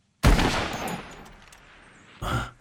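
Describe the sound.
Two gunshots fire at an animal while hunting in a video game: a loud, sharp blast with a long decaying tail, then a second, shorter report about two seconds later.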